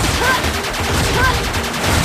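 Rapid bursts of gunfire from bullets in a video game speedrun: many sharp shots crowding into a dense, crackling barrage at a loud, even level.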